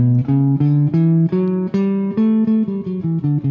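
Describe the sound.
An A Mixolydian scale, played like a D major scale that starts and ends on A, in a jazz scales lesson. A single sustained melodic instrument steps up note by note, then back down, heard alone.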